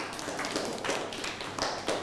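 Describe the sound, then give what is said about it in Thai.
A few scattered, faint claps from pupils in a classroom applauding a classmate, irregular sharp slaps rather than a steady round. “นั่งลงครับปรบมือให้เพื่อน”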